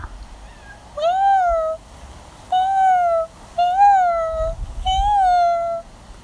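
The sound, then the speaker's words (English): A person imitates a cat's meow four times in succession. Each call is drawn out and tonal with a slight rise and fall in pitch, separated by short quiet gaps. “don't judge me. I'm sure you guys meow to your cat's back anyways.”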